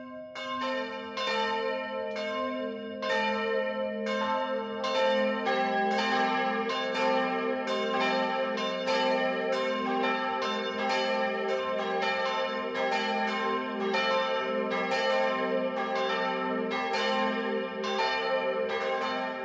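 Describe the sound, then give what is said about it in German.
Midday church bells ring from a Catholic branch church in a small Upper Bavarian village, a continuous peal of many overlapping strikes with a steady rhythm and rich, lingering tones, and no voices. “Es ist 12 Uhr. Das Mittagsläuten kommt heute von der katholischen Filialkirche St. Jakobus im oberbayerischen Piesenkamm.”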